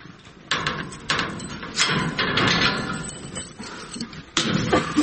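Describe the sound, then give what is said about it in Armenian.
A closed gate and a house door are opened, giving a few scraping, rattling knocks over a steady, noisy background, with no talk. “բացվեց փակ դարպասն ու տան դուռը”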